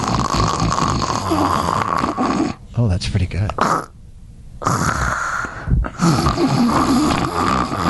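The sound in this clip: A man imitates his own snoring during sleep apnea with rough, growling snorts and gasping breaths, broken by a short silent pause midway before the snorting resumes, while other voices talk over it.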